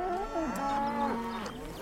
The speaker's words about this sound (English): a herd of cows now block the road.